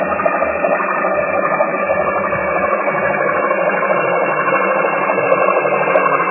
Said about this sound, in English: It may not seem like much of an issue from above the water, but beneath the surface, where engine noise travels widely and quickly, it sounds like this.